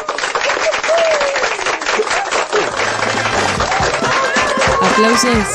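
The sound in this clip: Dense, loud applause rings out for a participant after a heated debate exchange, a steady wash of clapping throughout with voices talking over it.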